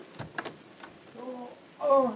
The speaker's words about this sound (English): Hold this weapon while I unlock the door.